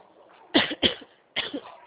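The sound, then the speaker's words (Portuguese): Three sharp coughs from a person who choked while breathing during a phone call: two quick ones close together, then a third after a short pause. “Desculpa, que eu engasguei a hora que eu fui respirar.”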